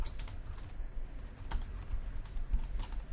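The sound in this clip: Typing on a computer keyboard while writing code: quick, uneven clicking keystrokes that continue throughout, fairly faint, with no voices.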